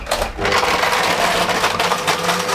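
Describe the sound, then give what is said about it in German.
A blender crushing four ice cubes at full speed gives a loud, continuous grinding whir with a rough, rattling edge that holds steady throughout. “Wir brauchen vier Eiswürfel. 1, 2, 3 und 4. So, und jetzt geht's ans Mixen. Yeah, Deckel drauf. Und an.”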